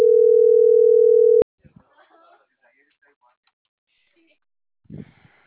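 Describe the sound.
Telephone line tone after a dropped call, a loud, steady single-pitch hum that ends abruptly with a click, followed by near silence and a brief voice near the end.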